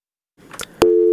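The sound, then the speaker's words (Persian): A telephone busy tone sounds after a phone call drops. A brief burst of faint clicks leads into a loud, steady tone that holds to the end. “متاسفانه تماس ما با احمد شاه فطرت، خبرنگار رادیو آزادی، قطع شده.”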